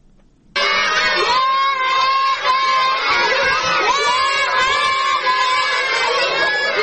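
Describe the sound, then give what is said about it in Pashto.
A large group of children in Nahri Sarraj district, Helmand, shouting and cheering together, loud and sustained with overlapping high voices, breaking in abruptly after a brief quiet moment. “دا د هلمند په لهري سراج ولسوالۍ کې هغه ماشومان دي چې له هر ډول زده کړو بې برخې وه”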